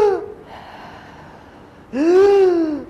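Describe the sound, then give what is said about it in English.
A voice imitates the laboured, struggling inhalation of a dying person on a deathbed, a loud, strained, voiced gasp drawn out for most of a second after a quieter breathy stretch. “in the last hours, the person struggles to inhale like this. And then so that they'll be, if they're lying on a deathbed, they'll go”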